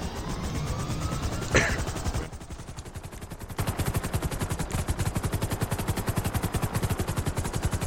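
Helicopter rotor chop from a video game with a police roleplay setting: a rapid, steady throbbing pulse that drops briefly, then returns louder and keeps beating evenly to the end.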